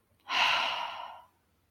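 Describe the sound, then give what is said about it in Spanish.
A single forceful exhale through the mouth during a guided breathing exercise for releasing tension. The breathy rush swells quickly and fades after about a second, with no talk. “vas a dejar salir el aire por la boca con fuerza y soltando tensión. Esto lo harás de la siguiente manera. Inhala. Exhala.”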